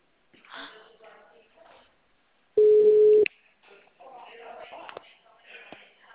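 A telephone ringback tone sounds while a call is being placed: one steady, loud, low-pitched beep lasting under a second. Quieter muffled noise comes before and after it.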